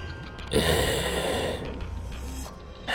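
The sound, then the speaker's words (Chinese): An old man rumbles his throat with phlegm: a single wet, breathy rasp lasting about a second, followed by quieter breathing and another short breath at the end. “葛二喉咙里边滚了一下，带着痰音。”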